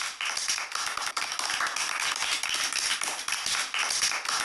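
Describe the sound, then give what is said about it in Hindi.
Children applaud together after a performance, a dense, even wash of clapping that holds steady for the whole stretch without a break. “बच्चों, गुनीत सिंह के लिए हो जाए जोरदार तालियां।”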